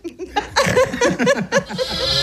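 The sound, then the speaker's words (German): Young sheep bleating, a pair of lambs kept apart from the rest of the flock, calling in a series of wavering, nasal bleats that follow closely one after another at a fairly loud level, with no talking. “gegenüber sind 2 Schafe, die sind getrennt von allen anderen Schafen.”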